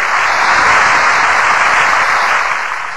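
Loud applause from a fair audience welcoming a female singer onto the stage: a dense, unbroken roar of clapping that holds steady and eases slightly at the end.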